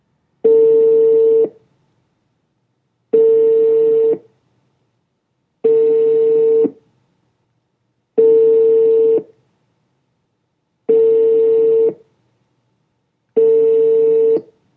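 Telephone ringback tone from an unanswered call: six even, steady-pitched tones, each about a second long, separated by regular silent gaps, loud and alone.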